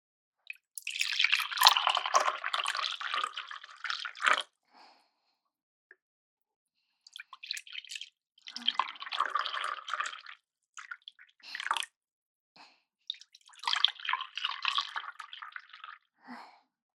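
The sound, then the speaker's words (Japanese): Hot water poured into coffee cups to warm them before serving coffee: three separate splashing pours with quiet pauses between, the first the longest. “今から召し上がるカップにお湯を注ぎます。温めることでより味わい深いコーヒーができるんですよ。”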